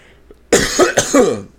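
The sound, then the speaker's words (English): A person coughs to clear a bubble in the throat: one short, throaty cough broken into a few quick rough pulses, alone and without speech. “excuse me, I seem to have a bubble in my throat.”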